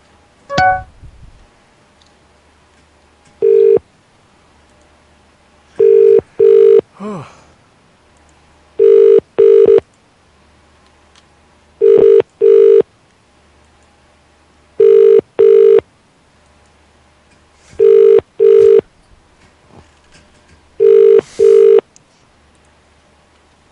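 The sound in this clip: An outgoing phone call goes unanswered: a ringback tone repeats in paired rings about every three seconds, several times over, with quiet gaps between each pair.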